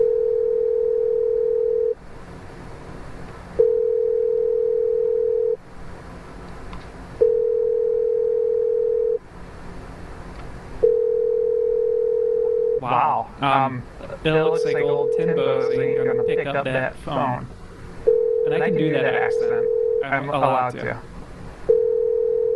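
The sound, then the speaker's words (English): Phone ringback tone while a call to a Tim Hortons connects: steady tones of about two seconds alternate with pauses and repeat many times, with people talking over the later rings. “It looks like old Timbo is going to pick up that phone”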